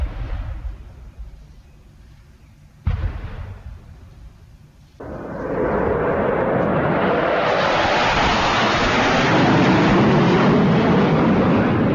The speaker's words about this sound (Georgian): დღეს მიწა კიდევ ერთხელ შეზანზარდა და საკვამლით აივსო, როცა სამხედრო თვითმფრინავებმა გადაიფრინეს.